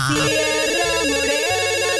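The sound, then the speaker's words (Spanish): A telephone rings with a rapid electronic warbling trill, loud and unbroken from start to finish, with no voices. “Pónganse a contestar las llamadas.”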